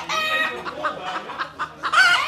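Chickens cluck on a farm where they roam among sheep, giving a series of short, fairly loud, squawking calls in an irregular rhythm that end in a longer, harsher cry.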